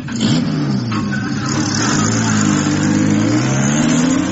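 A charabanc motor coach engine revs loudly and pulls away, a steady mid-pitched engine drone that holds strong throughout and climbs slightly in pitch toward the end.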